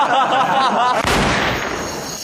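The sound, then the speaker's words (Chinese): A Browning pistol firing accidentally, one sharp, loud crack with a decaying tail, coming just after a brief voiced cry. “这么好的枪还能走火啊？”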